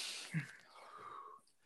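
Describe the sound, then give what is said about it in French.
A deep breath drawn before answering a question: a soft, brief low thump, then about a second of faint, airy inhalation heard alone. “Parce que je t'ai dit, je vais prendre mon souffle pour répondre à ta question.”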